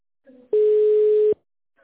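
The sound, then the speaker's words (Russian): A single steady electronic tone on a phone line while waiting to be connected to an operator after an automated menu. It is mid-pitched and lasts under a second, with a faint brief sound just before it. “Оставайтесь на линии для соединения с оператором.”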